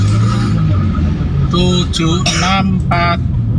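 Tentrem bus, plate 7645 UH, cutting right and left through busy traffic, heard as a steady, loud engine and road rumble with a few brief tonal bursts partway through.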